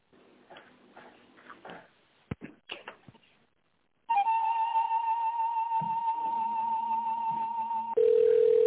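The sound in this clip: Telephone line tones as a call is being connected: a steady, loud tone holds for about four seconds, then gives way to a lower, continuous tone. Faint rustling and clicks come before the tones.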